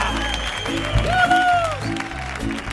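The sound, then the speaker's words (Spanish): Audience applause and cheering fill the Auditorio Cartuja, a brief wash of clapping beneath a loud voice calling out with a held, wavering tone. “queridos espectadores que tenemos aquí en el Auditorio Cartuja, que suenan así de potente. ¡Vamos! ¡Qué maravilla!”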